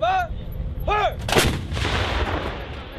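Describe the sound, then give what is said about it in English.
An artillery shell is fired on a military training range with a single heavy boom followed by a long, rolling rumble. Chirping bird calls are heard just before the shot. “The shell flies 6 miles through the air.”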